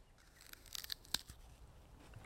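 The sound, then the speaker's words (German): Someone bites into a fruit with firm, apple-like flesh, giving a faint crisp crunch with a few tearing snaps around the middle, alone and quiet. “Ich beiße jetzt mal rein.”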